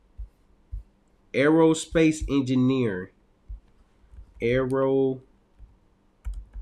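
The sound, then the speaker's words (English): Typing on a computer keyboard, with sparse, light key clicks in the gaps between two stretches of a person talking. “I'm trying to type it right now.”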